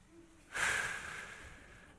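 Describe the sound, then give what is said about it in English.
One deep breath is drawn in, a quiet breathy rush that swells suddenly and then fades over about a second and a half. No other sound is heard. “why don't we take a deep breath, shall we?”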